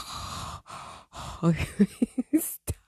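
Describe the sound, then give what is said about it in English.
Heavy breathing directly into a microphone: a few long, airy breaths give way to a run of short, sharper huffs and puffs. “Oh, yeah, I can breathe heavy into the mic now.”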